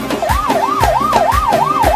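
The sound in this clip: Ambulance siren sound effect played at a wedding celebration: a loud wailing tone that rises and falls repeatedly in a steady cycle, with regular low thumps beating underneath.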